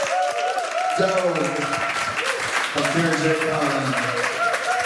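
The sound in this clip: Audience applause for a performer before a live radio audience: dense, steady clapping runs throughout, with voices or cheering rising above it.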